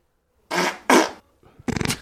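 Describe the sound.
Fart sound effect: a few short, blown, spluttering bursts in quick succession, each fairly loud and rough, with brief gaps between them.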